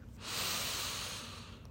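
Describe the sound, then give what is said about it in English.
A slow, deep inhale taken during a guided relaxation exercise, a soft airy hiss that swells and then tapers away, faint and heard alone. “Now take a few more deep breaths with me. Breath in.”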